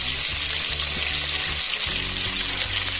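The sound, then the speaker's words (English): Chicken pieces browning in a hot pan give off a loud, steady sizzle. The dense crackling hiss of frying runs unbroken from start to finish. “And we're going to brown these for about 4 minutes. And then we're going to flip those pieces over with our tongs here.”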